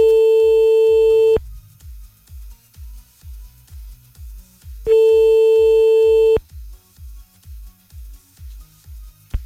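Telephone call tones as a call is placed: two long, steady, loud beeps, each lasting over a second and separated by a few seconds, over a continuous pulse of low rhythmic thumps.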